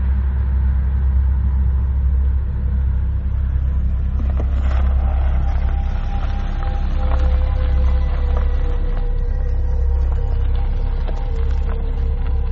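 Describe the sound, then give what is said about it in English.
A Hyundai Sonata that is nearly out of gas idles after pulling over onto a dirt road in the middle of Texas. Its engine gives a steady, unbroken low rumble that stays level from start to finish. “my Hyundai Sonata says it's almost out of gas. What? Is there any gas stations nearby? No, nowhere. Well, where are we? I don't know, we're in the middle of Texas. What can we do? I don't know, hold on, let me pull over in this dirt road over here.”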